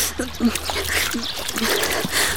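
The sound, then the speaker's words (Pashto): Water splashing and trickling as face and hands are washed in a basin, light sloshes and drips recurring under a voice talking. “ځه په دې لښتي کې لږ مخه او لاس پرېمینځه چې لږې تازه شي.”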